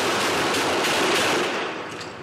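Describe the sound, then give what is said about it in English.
Rapid gunfire from a gunfight between Mexican federal officers and a drug gang: dense, sustained bursts of shots that run together into a loud, continuous crackle, easing slightly toward the end. “Listen to that. Mexican federal officers were in a gunfight Sunday with a drug gang when they were also attacked with a grenade.”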